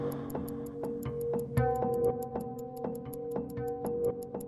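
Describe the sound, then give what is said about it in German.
A wristwatch ticking on a bedside table: many fast, crisp, evenly spaced ticks that run steadily throughout over a soft sustained tonal hum, with no voices. “Neben mir auf dem Nachttisch tickte meine Armbanduhr.”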